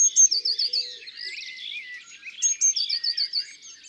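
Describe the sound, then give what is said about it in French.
Blue tit song: rapid, thin, high-pitched chirping notes in two bright runs with a short lull between, heard alone. “le chant d'une mésange bleue”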